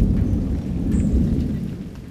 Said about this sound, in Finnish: Ukkosrintama lähestyi ja taivalta kuului tuon tuostakin jyrinää.